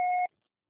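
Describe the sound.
Voicemail beep tone: a single short, steady electronic beep at a clear mid-high pitch, lasting about a quarter second, then cut off into silence.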